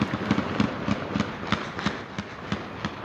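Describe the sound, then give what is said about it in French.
Celebratory automatic weapon fire by Taliban fighters in Kabul after they retook the airport and the capital: many sharp cracking shots in a steady, rapid run, fairly loud and alone. “Des tirs à l'arme automatique, tirs de joie des talibans qui ont repris possession de l'aéroport de Kaboul et de toute la capitale afghane.”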